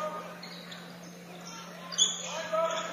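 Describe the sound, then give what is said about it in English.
A basketball is dribbled on an indoor court, giving a few faint bounces over a low, steady arena hum. “Dribble past the timeline.”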